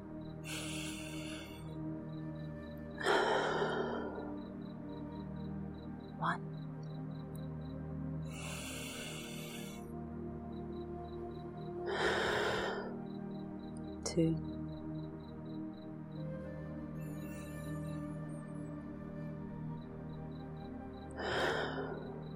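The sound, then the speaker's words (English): Slow breathing in a guided breathing exercise, with a slight pause before each exhale through the mouth. Several soft, airy breaths come at spaced intervals over faint, steady background tones. “pause very slightly before you breathe out of your mouth. Let's try it.”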